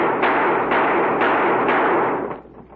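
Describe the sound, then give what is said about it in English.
Revolver shots ring out at targets on top of a street sign, a rapid string of sharp, loud cracks whose rolling echoes blur together into one sustained roar before trailing away. “we ain't seen shooting like that”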